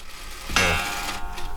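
Old farmhouse clock striking once: a single metallic chime sounds sharply and then rings on, fading over a low, steady background.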